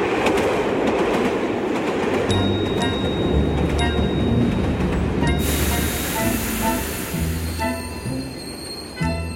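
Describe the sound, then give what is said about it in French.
A train running on rails gives a loud, steady rumble with rhythmic clickety-clack of the wheels and thin, high-pitched squeals from the wheels, continuous throughout. “Le mardi 23 avril, il arrive en train à la gare de Marseille-Saint-Charles.”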